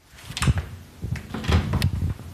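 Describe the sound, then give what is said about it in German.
A bedroom door is carefully opened, giving a few soft wooden clunks and light creaks spread across a couple of seconds, heard alone without talk. “Vorsichtig öffnet die Mutter die Tür zu Linas Zimmer und schaut hinein.”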